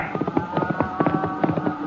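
Horse hoofbeats of a rider charging toward a group on a cattle trail in a radio western, a rapid, rhythmic clatter of thudding hooves running steadily with a sustained tone underneath.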